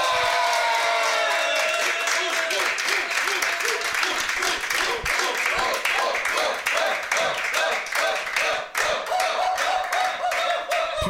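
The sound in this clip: Enthusiastic applause and cheering from a live audience at a public recording in a Paris venue: many sharp, fast claps form a dense, loud, sustained roar, with some voices mixed in.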